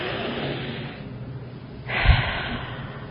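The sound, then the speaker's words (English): A deep breath drawn during a calm relaxation talk: a soft airy stretch, then a short, fuller breath that peaks sharply and fades again. “take time to take a deep breath”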